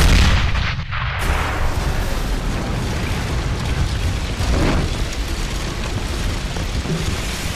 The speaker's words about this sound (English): He pulls out what looks like a detonator, and he pulls it, and you see the taco shop explode.